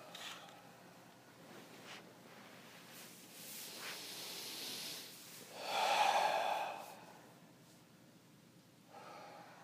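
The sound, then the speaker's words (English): A group takes deep breaths at the start of a yoga class, faint and airy, with one fuller breath swelling and fading midway over a soft background hiss. No speech. “Maybe everybody take a couple deep breaths.”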